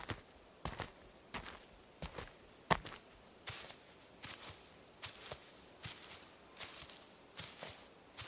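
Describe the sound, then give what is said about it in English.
Footsteps walk back toward a tree stump in a steady series of soft, crunchy treads at an even, unhurried pace, quiet and with no talking. “I put the pill bottle in my pocket and walked back to the stump.”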